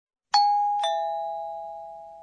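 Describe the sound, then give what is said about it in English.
A two-tone doorbell chime: a bright first strike, then a slightly lower second tone about half a second later, both ringing clean and sustained as they slowly fade, with no voices. “I think that's the sound of a doorbell or a chime.”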